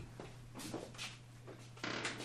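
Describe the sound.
A door being closed in a room that echoes like a church during an interview: a few muffled knocks and shuffles over a steady low hum, ending in a firmer bang.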